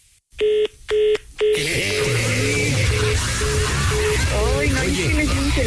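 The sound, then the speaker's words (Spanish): Telephone keypad tones sound as a number is dialed: three short, bright beeps in quick succession, then a noisy hissing stretch with a repeating tone and voices underneath. “Va a marcar a Alejandro.”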